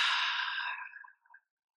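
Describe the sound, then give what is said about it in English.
A single slow, airy exhale during a guided deep-breathing exercise, soft and fading out gradually with a faint breathy tail. “Take a deep breath in. And exhale.”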